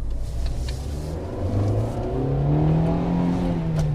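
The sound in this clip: A Fiat 500 Sport Prima Edizione, an early Italian micro-car, revs its engine. The buzzy whine climbs in pitch, then holds steady, with no talk over it.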